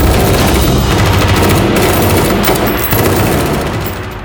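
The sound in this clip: Guns opening fire in a sustained volley of automatic gunfire, a loud, dense and continuous rapid rattle that holds for several seconds and fades slightly toward the end.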